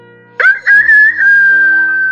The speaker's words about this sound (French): un coq chantait à gorge déployée. Quel boucan ! S'écria l'âne. Pourquoi fais-tu ce vacarme ?